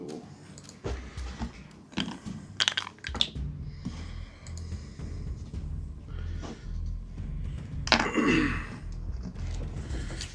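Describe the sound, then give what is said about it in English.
Dice dropped and rolled: sharp clattering clicks and rattles in a few bursts, with the loudest rattle near the end. “Dropping dice.”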